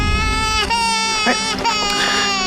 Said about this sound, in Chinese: 你怎么哭上啊？ 丫头，你别哭